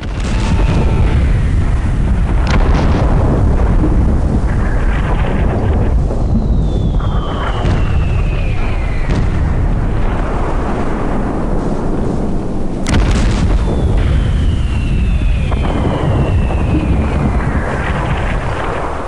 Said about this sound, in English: Shell after shell, non-stop, kept exploding. The troops described the ground as a constant shaking and a rumbling.